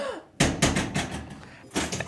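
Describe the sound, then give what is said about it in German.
A prison cell door is shut with a sharp, loud metallic impact. A run of clanks and rattles follows, and another loud clank comes near the end. “Könnt ihr mal fühlen, wie das ist, wenn die Tür zu ist? Ja. Ja, alle miteinander geht noch. Einzeln später. Ich mach zu, ja.”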